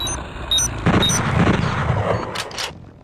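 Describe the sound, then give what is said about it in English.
A manual bolt gun fires in an audio-only first-person shooter video game: a loud, heavy burst with a long rumbling tail, preceded by a couple of brief high beeps. “There are first-person shooters like Shades of Doom, which is inspired by the Doom franchise. Your manual bolt gun.”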